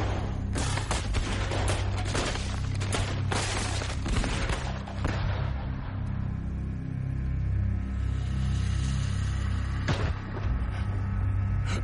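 Gunfire from a firing squad after the command to fire: a burst of many sharp, overlapping shots fills the first half, then a low rumble follows with one more isolated crack near the end.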